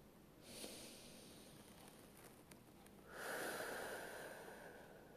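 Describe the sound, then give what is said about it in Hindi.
One long, deep breath taken during a mindfulness exercise: a faint, drawn-out airy inhale, then a louder, hissing exhale that fades out, with no talking. “अब एक लंबी गहरी सांस लेंगे”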